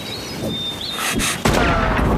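A gunshot is fired at a moving wooden board target. It lands as a sudden, loud, sharp report over steady background noise, and the noise stays loud after the blast.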